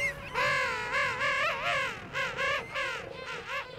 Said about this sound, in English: Mark recorded these hungry Oakum Boys and their royal mothers and fathers on South Georgia Island.